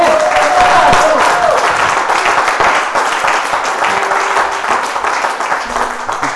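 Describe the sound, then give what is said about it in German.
Loud, dense audience applause for a harmonica player continues without a break, with many overlapping claps that fade slightly toward the end. “Den Applaus, den du jetzt gekriegt hast, den kannst du nicht mehr wegnehmen.”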